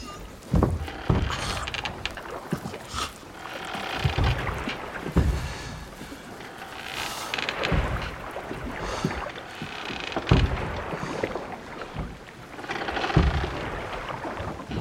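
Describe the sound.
Oars dipping and splashing as a man rows a boat across water, a repeating series of swishing strokes and watery splashes over a steady, breezy background noise.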